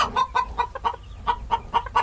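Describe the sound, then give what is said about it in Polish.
Ornamental hens clucking, kept in a city-centre flock: many short, sharp clucks come in quick, uneven bursts with brief gaps, fairly loud and with no talk over them. “rzadko tutaj można zobaczyć takie kury, które są ozdobne, więc jest to ciekawe.”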